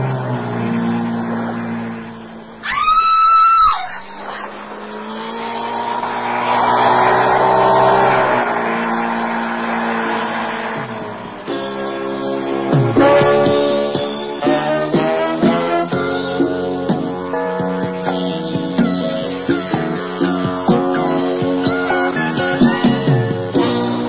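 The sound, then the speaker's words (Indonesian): A motorboat speeding away, its engine droning and revving in a harsh, buzzing roar that swells and shifts in pitch, with a brief high whine early on and a steady throbbing drone later. “Lihat, Ma. Mario dibawa orang naik motor bot.”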